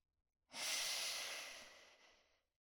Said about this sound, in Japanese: だからもう一度深呼吸、順番に体を慣らしていきましょう。ほら、息を吸って、